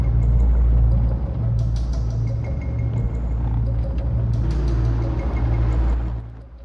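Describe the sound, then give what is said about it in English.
Engine rumble of an old red pickup truck driving, a steady low drone with faint higher tones that holds evenly and then drops off at the end. “An ancient red pickup truck is following him.”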